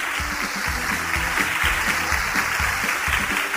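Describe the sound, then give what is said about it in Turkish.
A studio audience on a Turkish religious quiz show applauds a correct answer. Steady, moderately loud clapping runs continuously from start to finish. “Evet, doğru cevap mı? Evet. Alkışlayalım o zaman.”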